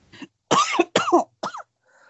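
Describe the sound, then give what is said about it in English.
Coughing and throat clearing: a short series of raspy, partly voiced bursts, a faint one and then several loud grating coughs in quick succession, followed by a faint trailing breath. “Oh, sorry. Something in my throat there.”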